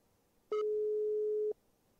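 A telephone tone sounds while a call is being placed: one steady, mid-pitched beep lasting about a second, loud and alone against near silence, with no talk.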